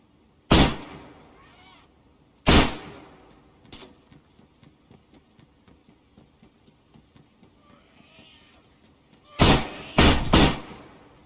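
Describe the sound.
Gunshots in a video game, heard as sharp, loud cracks spaced a couple of seconds apart, with a lighter pop and a stretch of soft, regular ticking between them, then a quick closing run of three shots.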